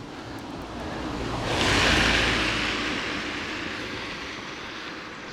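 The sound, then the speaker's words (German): An off-road vehicle drives through muddy, water-filled ground. A broad rushing noise swells to a peak near the middle and then slowly fades, with no voices. “Aber die fahren hier nur mit Geländewagen durch, wa? Jetzt kommt schon wieder der nächste.”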